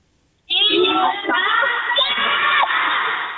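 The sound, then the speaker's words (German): Children cheer and shout together in a sudden loud burst of excited, high voices. It starts after a short silence and holds for about three seconds before easing slightly. “Linus und Lilly so anzufeuern, dass das hier von Dormagen bis nach Köln zu hören ist? Ja. Sind ja ungefähr 30 Kilometer, aber ihr kriegt das hin. Zeigt doch mal kurz, wie werdet ihr das gleich machen?”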